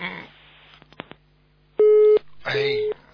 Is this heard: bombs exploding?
no